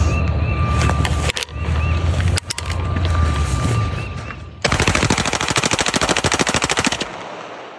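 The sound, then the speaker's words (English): Automatic rifle fire aimed at cans of Bud Light beer. A loud, noisy stretch is broken by a couple of sharp cracks, then a sustained burst of rapid, evenly spaced shots cuts off abruptly. “shooting at cans of Bud Light with an automatic rifle”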